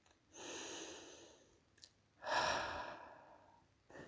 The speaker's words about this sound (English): And what I should do is take a breath. And maybe if you want, you can take a breath with me, but you don't have to.